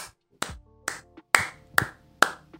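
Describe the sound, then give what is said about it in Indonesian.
A few sharp, separate hand claps sound alone in near silence, spaced unevenly and crisp, more like a single person clapping than a full crowd. “Applause.”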